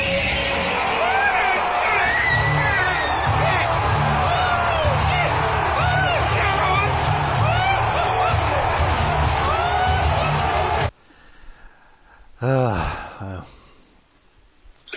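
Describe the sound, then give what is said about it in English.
A live audience at a wrestling event roars and cheers loudly and without a break for about eleven seconds, then cuts off abruptly to a much quieter passage. “But you know the loud reaction. Well, let's hear the live audience.”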